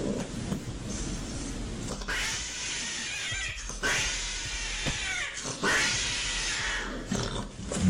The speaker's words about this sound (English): we were wondering, like, okay, are those cats fighting? And then we were sent a video of two cats on top of each other.